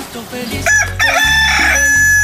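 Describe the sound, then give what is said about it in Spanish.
A rooster crows once, a loud, strained, harmonic call lasting under two seconds over a low rumble. “qué bonito, qué chulo canta mi gallo”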